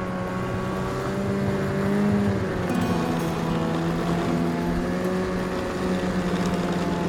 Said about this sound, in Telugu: అతని కేసి కూడా చూడకుండా స్కూటర్ స్టార్ట్ చేసి ఇంటికి బయలుదేరింది పద్మ